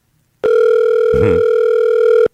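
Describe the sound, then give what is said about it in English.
A steady telephone dial tone sounds while placing a call, a loud unbroken hum that starts abruptly, holds for nearly two seconds without change, and cuts off sharply. “We're dialing up listener Danielle in Warsaw.”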